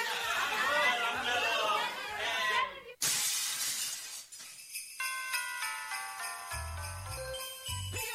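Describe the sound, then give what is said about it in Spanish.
A clay piñata shatters loudly in a radio drama, breaking with a sharp crash about three seconds in after lively crowd chatter. Lighter tinkling debris follows. “Jorge al sentir que quebró la piñata se bajó la venda y vio a la gente que estaba en el suelo recogiendo la fruta.”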